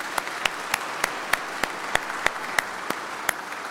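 Applause from a church audience welcoming a priest back to his home parish. A steady wash of clapping runs throughout, with a regular beat of sharper claps rising above it.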